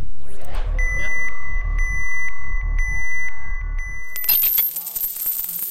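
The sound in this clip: Euro coins dropping, with a bright metallic clatter of many small jingling hits in the last second and a half. Before it come a steady electronic tone and a pulsing low beat.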